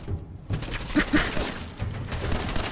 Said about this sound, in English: I'm taking all these guys out with my pistols.